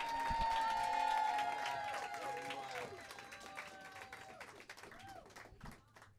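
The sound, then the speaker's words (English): An audience at a live show applauds and cheers: dense clapping with whoops and shouts, loudest at the start, then gradually thinning out over about six seconds. “So make some fucking noise right now. Louder. Please louder. Give a warm welcome to Raina Morris.”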